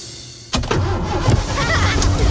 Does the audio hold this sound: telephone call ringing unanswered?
no